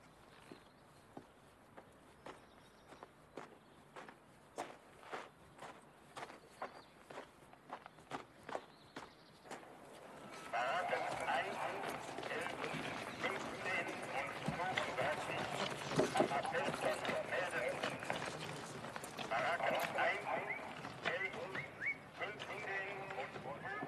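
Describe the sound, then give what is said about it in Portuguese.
Footsteps of someone walking behind another person, given as steady, evenly paced steps for about ten seconds. Louder, busier background noise then swells in, and voices are heard over it. “Stern, o que você está fazendo andando atrás de mim?”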